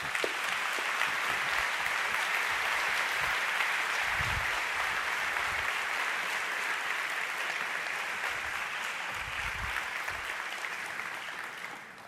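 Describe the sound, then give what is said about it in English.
Sustained audience applause in a church welcoming a guest speaker: a dense, steady wash of clapping at full strength throughout that thins slightly toward the end. “So at all of our campuses, please put your hands together and help me welcome Dr. John Piper to our church.”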